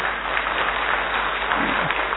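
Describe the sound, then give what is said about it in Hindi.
Audience applause at a devotional gathering for goddess worship: dense, continuous clapping that stays steady and loud across about two seconds, with no pauses or voices standing out. “ताली बजाओ ना”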